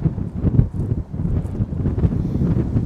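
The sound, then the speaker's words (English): Outdoor wind buffets the microphone as a continuous low, rumbling roar in uneven gusts, with no voices. “Now the wind is really picking up.”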